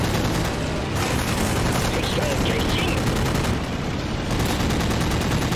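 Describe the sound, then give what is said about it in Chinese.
American machine guns fire in the video game Battlestations: Midway, a dense, loud, continuous rattle of rapid shots with no break. “你也是不需要使用航弹的，你只需要使用机枪，火力确实很猛啊，美军。”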